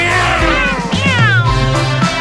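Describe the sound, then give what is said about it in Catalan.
A cat meows in loud, drawn-out, strained cries with a wavering pitch, as if squashed under a boot. Several plaintive yowls run together over a low, steady droning tone. “Acabarem dient el gat aixafat, per una bota.”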